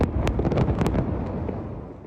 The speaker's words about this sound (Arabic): فجر الاحتلال البناية التي كانت تملكها عائلة السلطة وتعيش فيها في مخيم طول كرم.